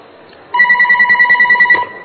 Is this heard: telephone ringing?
yes